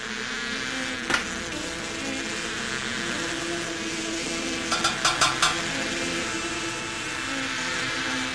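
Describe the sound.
Honeybees buzzing inside a hive, a dense, steady hum that holds at an even level throughout, broken by a few brief sharp clicks.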